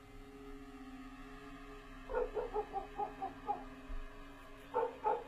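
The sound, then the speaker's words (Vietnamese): A black dog barks in a yard: a quick string of short, yipping barks, a pause, then a couple more, fairly faint over a steady low hum. “Cùng lúc, ở ngoài sân, tiếng con chó mực nó sủa lên inh ỏi.”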